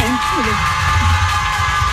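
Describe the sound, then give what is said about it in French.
Studio audience applause and cheering on a French TV show: a dense, steady roar of clapping runs throughout, with shouted whoops and voices rising over it. “On va demander au public d'applaudir. Allez.”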